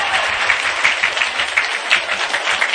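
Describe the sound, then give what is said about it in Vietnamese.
An audience at a Buddhist monk's talk applauds, with dense, steady clapping that holds at an even loudness from start to finish. “Vỗ tay, vỗ tay, vỗ tay con.”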